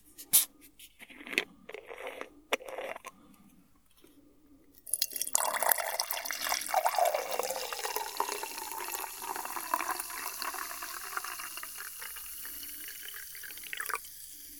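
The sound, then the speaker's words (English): Kombucha fizzes in a drink. A few faint drips and clicks come first, then a steady crackling, hissing effervescence that carries on and slowly thins out. “Do you hear that? That's the sound of a symbiotic colony of bacteria and yeast, or SCOBY if you will, making passionate, sweet, nasty, sensual love in my drink.”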